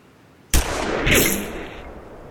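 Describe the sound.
A rifle shot during shooting practice gives one sharp, loud crack, followed by a long rumbling tail that fades over roughly two seconds, with no voices.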